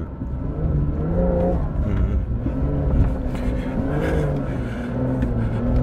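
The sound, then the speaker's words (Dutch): A car engine labours and revs as the vehicle climbs a sand dune with stability control switched off, a loud, continuous low drone whose layered tones waver and shift without let-up, with no voices over it. “Maar je rijdt zo'n zandduin op en je ziet helemaal niks.”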